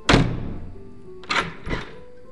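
Heavy meeting-hall door is pulled shut: a loud wooden thunk at the start, followed a moment later by two softer knocks close together.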